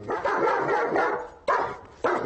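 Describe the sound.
A dog barks loudly in a few rough, harsh bursts: a long run of barking at the start, then two sharp barks separated by short pauses.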